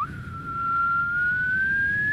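A person whistles a quiet call, one long, thin, pure tone that starts with a quick upward slide and then holds, creeping slowly higher in pitch over a soft background hiss.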